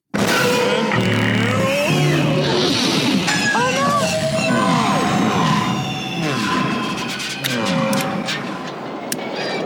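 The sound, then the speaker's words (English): Podracer engines roaring through the first lap of a pod race in a film: loud, dense whining engines with many sweeping rises and falls in pitch as craft pass, with voices heard amid the din. “So are we ready to move on and just listen to lap one of the pod race?”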